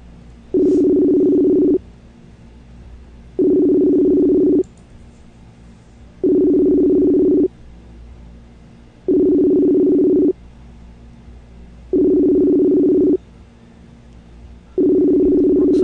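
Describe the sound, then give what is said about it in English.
Telephone ringing tone while a call is placed to two guests at once: six long, steady mid-pitched tone bursts repeat at even intervals, separated by quiet gaps. “Let's give these guys a call. I'm trying something new. I'm going to call both of them at one time.”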